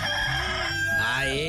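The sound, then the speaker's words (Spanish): A rooster crows once, a short, slightly hoarse and rough call that is loud and alone. “ya cantó el gallito, ya pues a levantarse. Ahí está el gallito, caramba. Este anda medio ronco, este gallo.”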